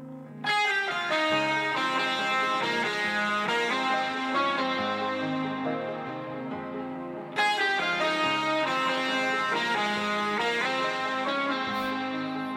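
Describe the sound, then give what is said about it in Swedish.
Doubled synthesizer melody lines stack into a thick, effect-heavy wall of sound with distorted, chorus-like shimmer over a low bass, playing continuously at steady loudness with a brief dip before the full layered attack returns. “Vi lyssnar på alla de här melodidubbarna ihop då.”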